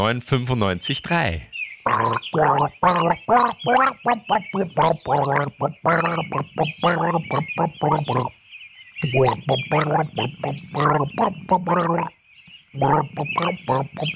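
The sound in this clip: A person gargles a song melody: a long run of bubbly, throaty gurgling bursts in rhythmic, tune-like phrases with brief pauses between them.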